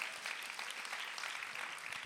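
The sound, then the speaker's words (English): An audience claps together in a continuous dense patter of applause at a steady, moderate level throughout, with no voices standing out. “Can we just clap one more time and thank God?”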